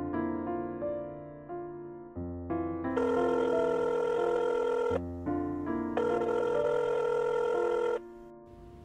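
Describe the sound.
A telephone rings on an outgoing call, a repeated electronic ringing tone in steady, evenly spaced bursts of moderate loudness with no voices.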